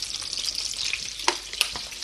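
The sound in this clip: Breaded schnitzel frying in a generous amount of oil gives a steady, dense sizzle throughout, with two brief, sharper pops standing out near the end.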